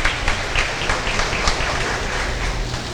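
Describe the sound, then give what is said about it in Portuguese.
Applause rises at a festival at the Santuário de Santa Clara, a short burst of many hands clapping at moderate loudness. “Obrigado, uma salva de palmas.”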